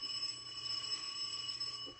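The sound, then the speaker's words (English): An apartment doorbell rings late at night, a faint, steady electric buzzing tone held unbroken throughout, with no voices. “Monday morning, 12:47 a.m., we rang the bell to his apartment. He's probably asleep. Yeah. Want to try it again?”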